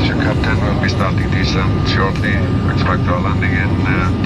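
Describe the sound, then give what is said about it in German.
Constant loud roar of an airliner cabin as the plane begins its approach to land in Iceland, with steady engine drone throughout and a person talking over it. “Also, anschneiden, wir setzen an zur Landung, na klar, in Island.”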